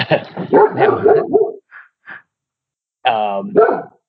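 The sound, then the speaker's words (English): A pet dog barks with a couple of short, sharp yelps among people talking. A louder, whining bark comes near the end. “the dog likes that one. The dog likes that.”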